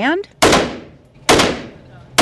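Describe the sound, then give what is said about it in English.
Gunshots fired at a paper target from an AR-15 or handgun at a gun safety-lock event: three loud, sharp cracks evenly spaced, each followed by a long decaying ring. The last shot cuts off at the end. “Graham has an AR-15 and a handgun. He aims”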